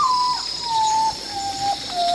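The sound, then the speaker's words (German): Common potoo (urutau) calling: a mournful whistled tone that steps down in pitch in a few drawn-out stages, over a steady high insect buzz. “Der Uratau, der Tagschläfer.”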